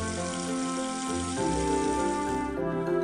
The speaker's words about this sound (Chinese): 完整取出螺肉，用流动的清水冲洗掉泥沙污垢。